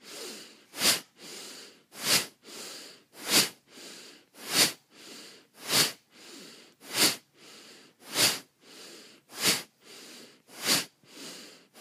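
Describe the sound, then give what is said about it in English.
Deep breaths drawn sharply in a steady breathing practice: many strong, evenly spaced nasal inhalations repeat about once a second, each a rushing hiss, with softer breaths between them and no talk. “Deep breath.”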